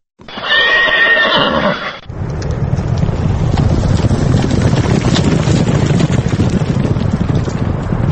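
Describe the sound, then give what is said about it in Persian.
A horse whinnies loudly for about two seconds at a Navruz horse race in Dushanbe, Tajikistan, with Tajik purebred horses. A dense, steady roaring rumble then takes over for the rest. “در مسابقه اسب دوانی اشتراک کرده، از آنجا برای ما گزارش آماده کرده است.”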